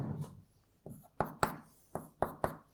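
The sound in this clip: Writing by hand during a lecture: a soft scrape, then six sharp taps and short strokes in an uneven rhythm, fairly quiet with no talk over them.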